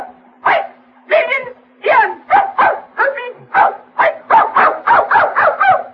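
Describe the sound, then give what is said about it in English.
A dog barks in a rapid run of many sharp, loud yaps, with a steady low hum running beneath them. “That's a dog? That's canine. Be quiet. Be quiet.”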